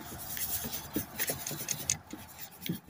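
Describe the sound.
A paintbrush lays color onto a plein air landscape painting outdoors, making faint, irregular scratchy and rubbing strokes that come in quick uneven bursts, with no voices.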